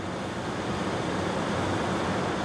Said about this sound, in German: Am östlichen Ende des Pantadesau fällt das Wasser über ein dickes Betonrohr aus einer 83 Meter hohen Staumauer.